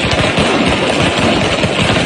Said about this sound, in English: Shooting AKs at us? No, that's a bunch of fireworks.